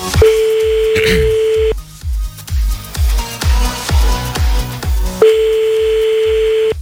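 Telephone ringback tone on an outgoing call, two long steady beeps a few seconds apart over a pulsing background music bed.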